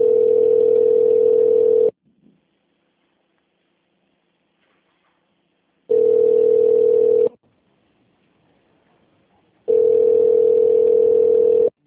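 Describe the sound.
A telephone line gives a steady mid-pitched tone while the call connects. It comes as three loud, flat beeps with long silences between them, and the last beep is cut off.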